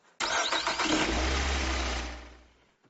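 A car engine starts: a short burst of cranking is followed by the engine catching into a low, steady idle rumble that holds loudly for a couple of seconds, then fades out. No talking.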